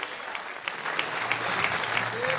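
Applause from a church worship gathering: steady, dense clapping that holds at an even level for the whole stretch, with no pause or clear rise.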